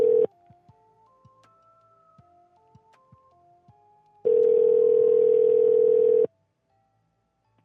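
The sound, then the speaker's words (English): Telephone dial tone heard while placing a call: a brief steady hum, then a run of short stepped dialing tones and clicks, followed by a loud, steady hissy tone lasting about two seconds before silence. “So I'm just going to call him for you guys since it is Halloween.”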